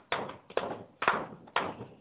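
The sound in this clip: Knocking in a kitchen: four sharp, evenly spaced knocks, each with a short rattling decay, heard alone without talk.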